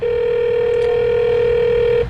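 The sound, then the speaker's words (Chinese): A telephone rings on the line after the call button is pressed, one steady tone held at an unchanging pitch for about two seconds, loud and alone. “我按下了呼叫键。”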